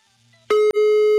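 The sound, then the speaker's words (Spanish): A telephone ringing tone on a call line: a loud, steady buzzy tone cuts in about halfway through, breaks off for a moment, then continues at full level with no voices. “Ahí está marcando ya. A ver si nos contesta. Está sonando, mano, ya está sonando.”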